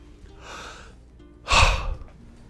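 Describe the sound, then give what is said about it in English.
A person pausing mid-talk to breathe: a soft, airy breath, then a louder, sharp gasping intake of air, with no words spoken. “I'm taking a second to breathe because many of you say that I get to talking like a hurricane and I don't slow down to breathe.”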